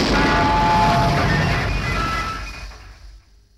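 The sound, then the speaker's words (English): A comic explosion sound effect of a radio blowing up: a broad, rumbling blast that starts loud and fades away over about three seconds. “Oh dear, the radio's exploded.”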